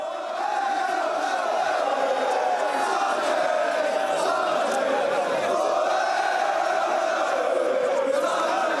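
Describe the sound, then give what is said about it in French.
Loud, sustained roar of chanting football supporters, about a thousand strong and carrying drums, megaphones and flares, greeting a new Olympique de Marseille signing at Marseille-Marignane airport; a wavering sung tone runs steadily through the crowd noise. “Accueilli comme une star hier soir à l'aéroport de Marseille-Marignane, un millier de supporters armés de tambours, de mégaphones, de fumigènes qui ont donc accueilli bruyamment la nouvelle recrue de l'OM.”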